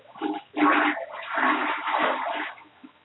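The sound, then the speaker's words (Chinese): A toilet flushes in one loud, rushing watery burst lasting about two seconds. It fades out near the end, with no talk over it. “我也听冲马桶的声音。”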